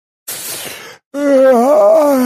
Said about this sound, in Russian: Зевнул я, едва не свернув челюсть.